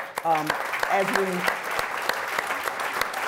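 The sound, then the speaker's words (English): Audience applause at a panel event on Black giving and racial equity, a moderate patter of claps under a speaking voice that continues throughout. “And for that, I think we need to applaud”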